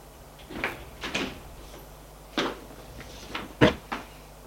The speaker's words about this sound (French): Ouvre la porte d'entrée avec sa clé et entre.